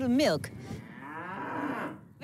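A Groninger Blaarkop cow on an organic dairy farm gives one long, loud moo that lasts about two seconds, its low drawling pitch wavering as it goes.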